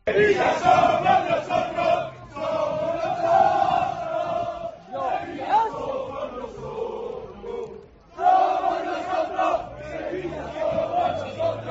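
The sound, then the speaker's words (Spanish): Sevilla supporters jeering their own players at the club's training ground, a loud crowd chanting and shouting in rhythmic bursts, with brief dips between waves of massed voices. “no pudieron salir porque los aficionados, muchos seguidores del Sevilla, fueron a la Ciudad Deportiva a increpar a los propios futbolistas.”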